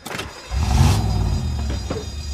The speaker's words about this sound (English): The car peels out of its spot and speeds past the staff parking sign.